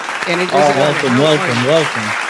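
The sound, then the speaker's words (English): Audience applause welcoming retired wrestler Jerry Brisco, one half of the Brisco Brothers, a continuous wash of clapping carrying a prominent tonal, voice-like sound over the top throughout. “Ladies and gentlemen, boys and girls, give it up for the one and only half of the Brisco Brothers, half of the Stooges.”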